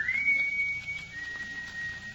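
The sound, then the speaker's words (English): A faint, thin whistle holds one steady high pitch for about two seconds, wavering slightly, over a low background hum. “That whistle? Yes. I imagine it's just one of the fellas outside or something. It sounded as though it were right here in this house.”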